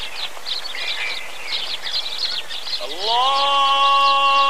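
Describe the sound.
Birds chirp and twitter in quick, bright bursts throughout, with a sustained chanted voice from a call to prayer entering partway through and holding long steady tones over the birdsong.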